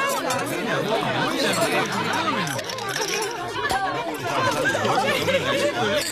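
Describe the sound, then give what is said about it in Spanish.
Dinner chatter: many people talking over one another in a continuous, lively babble at a meal, holding a steady level throughout. “Seguramente estos te parecieron sonidos de una cena cualquiera”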